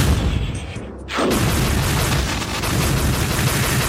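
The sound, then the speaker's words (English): Magic bolts fired from staffs in a video game make a loud, dense crackling barrage that dips briefly near the first second, then surges back into a sustained, unbroken roar of blasts with no voices. “It's a lot of shooting. Yeah. You know, lasers. A lot of blood. Yeah, no guns, but the shooting was mostly from staffs. Yeah, like magic bolts and stuff like that.”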